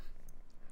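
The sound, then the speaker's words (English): A cat purrs right beside the microphone: a low, rumbling, steadily pulsing drone, fairly faint and continuous, with no talking over it. “Also, if you hear purring, it is because my kitty is right next to me purring.”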